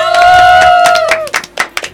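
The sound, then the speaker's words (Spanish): Clapping for a sound engineer at the controls during a live radio show. A loud, sustained tonal cry comes first, then a few sharp, separate claps that trail off. “un aplauso”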